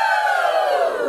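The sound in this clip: Members of a crafting group cheer together in a single drawn-out whoop lasting about a second, the voices sliding gently downward in pitch.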